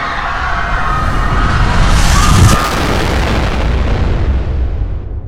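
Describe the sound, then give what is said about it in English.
Massive explosion blast with a rushing shockwave as a city is destroyed: a loud, sustained roar that swells near the middle and then gradually fades. “When his vision returns from the blinding flash of blast, the soldiers in charge widen their eyes in terror as the shockwave rushes towards them.”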